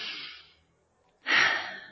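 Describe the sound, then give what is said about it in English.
Deliberate breathing in through the nose and out through the mouth. A soft, airy breath tapers away, and after a short silent pause a louder rushing exhale comes in abruptly and slowly fades. “if you want to take a breath with me, take an inhale.”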